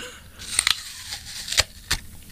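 Crisp crunching comes as teeth bite into a tart, sour, slightly greenish fruit, then chew it. A few sharp crunches stand out over a faint hiss.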